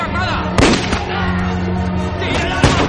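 Pistol gunshots in a film scene: a few sharp, bright cracks stand out over a dense, steady bed of music and ambience, with one early pair of shots and another loud report near the end.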